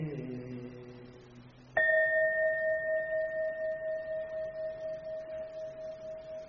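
A meditation bell is struck once and rings on as a bright, sustained tone with a slow, gentle pulsing waver, fading only slightly over several seconds.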